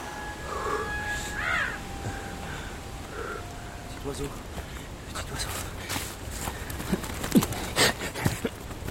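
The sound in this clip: A horse's hooves clop in an irregular run of steps that grows busier toward the end, with a voice heard faintly early on.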